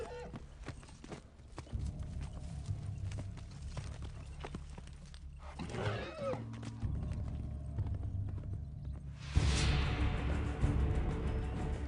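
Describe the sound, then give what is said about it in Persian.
Hooves of a group of five or six horses clip-clop in a steady, overlapping rhythm of many sharp knocks over a low rumble, growing a little louder near the end. “چند نفرم؟ 5 یا 6 اسب.”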